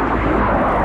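Drone flying overhead in Ukraine war footage, heard as a dense, steady engine whir and buzz that holds at an even, loud level for under a second.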